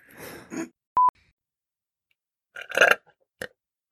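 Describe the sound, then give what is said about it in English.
A belch from a man, a few short throaty bursts with a brief steady electronic beep between them and near-silence around, no speech. “belches entirely too much, and it's disgusting”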